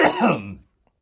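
A single short, rough cough from someone who has just inhaled beer, a brief harsh burst that dies away within a second, with no talk.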